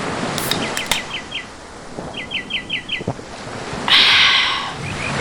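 Birds chirp at the water's edge of a beach at Montigny lined with resinous trees, giving quick bursts of short tweets. A rushing wash of surf then breaks in and fades under soft wind.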